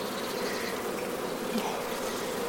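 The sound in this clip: Bees buzz at a hive in a steady, continuous drone, a dense hum with no breaks and no voices over it.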